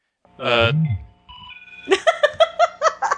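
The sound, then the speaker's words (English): A phone text message alert plays a quick run of about seven short, bright tonal notes. A brief vocal sound comes before the alert. “I got a text message from Brian Smith.”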